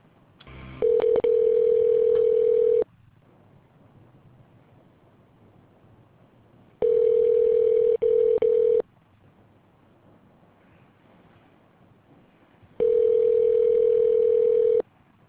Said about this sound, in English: We appreciate your call. Wait while I transfer your call.